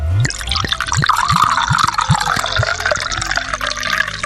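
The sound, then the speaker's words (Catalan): Marc de Banyuls liquor is poured from a minibar bottle into a glass. A quick series of liquid glugs and splashes runs over a continuous trickling wash, with no speech. “Des del minibar, ell li va servir un got de Marc de Banyuls.”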